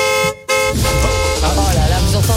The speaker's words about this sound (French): Ça, c'est le bruit de la voiture gratuite, ça.